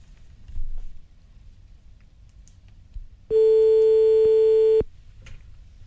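A telephone call is placed, and one steady, loud telephone tone sounds for about a second and a half. Quiet low rumble comes before it and after it.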